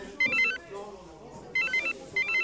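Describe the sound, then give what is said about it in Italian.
A police commissioner's telephone rings in a café at breakfast. Three bursts of bright electronic trilling ring out in quick succession over a low, murmuring background. “il telefono del commissario Tentenna suona.”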